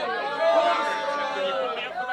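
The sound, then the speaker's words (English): A crowd murmurs in a street, a dense, continuous babble of many overlapping voices at steady moderate loudness, with no single voice standing out. “Stand back. Don't join us. Keep the crowd back.”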